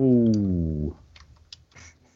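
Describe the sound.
Faint, sparse clicks of a computer keyboard as a web search is typed, coming just after a short voiced sound at the start.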